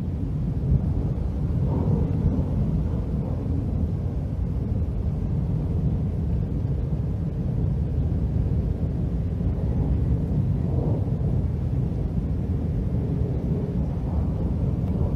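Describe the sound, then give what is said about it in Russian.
Continuous rolling thunder from a storm that keeps rumbling: a loud, deep, unbroken roar holds steady for the whole stretch, with no distinct claps and no talk. “Она сказала, что этот рев — это гром. Небо не переставало грохотать.”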